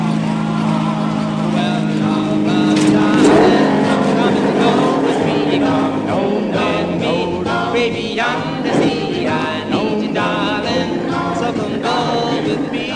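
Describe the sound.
A manual-clutch car being driven gives a loud, steady engine roar whose pitch shifts and slides. Other dense sound is mixed in throughout.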